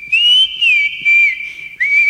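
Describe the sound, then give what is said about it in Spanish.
A person whistles a tune in clear, bright, high tones, with about five short melodic phrases separated by brief pauses. The whistling is heard alone, with no talking. “Silba lindo, usted hace, da ganas de seguir silbando, dice, ¿no?”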